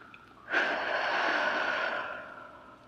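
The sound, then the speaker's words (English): A deep breath: one long, airy, rushing breath sound that starts sharply and then fades gradually over about a second and a half, heard alone. “we're going to take a deep breath in and a deep breath out. So just do that with me.”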